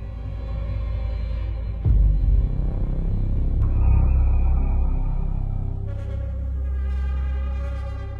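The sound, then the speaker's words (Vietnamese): Deep thunder rumbles as dark storm clouds gather. It holds low and steady, swells sharply near the start, then rolls on heavily before easing slightly toward the end. “bỗng nhiên mây đen từ đâu ùn ùn kéo đến. Trời đất vần vũ nổi cơn giông.”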